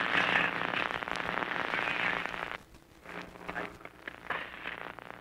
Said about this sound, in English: There they go. That's the bazookas. Those bazookas are really getting in line now. They're going to blast them out of there, concrete and all.